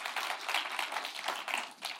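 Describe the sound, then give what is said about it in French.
A church audience applauding during a service, a dense, fairly soft patter of many hands clapping that continues unbroken throughout without voices. “Est-ce que ceux qui le vivent peuvent applaudir Dieu pour dire « Seigneur, merci parce que tu pourvois à tous nos besoins. »”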